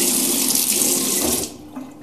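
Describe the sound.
Water running from a tap in a loud, steady hissing gush that cuts off partway through, leaving only a faint trickle and low background noise afterwards.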